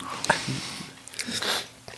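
Biting and chewing on a piece of blueberry cake: a few short, soft crunching and moist mouth sounds, fairly faint.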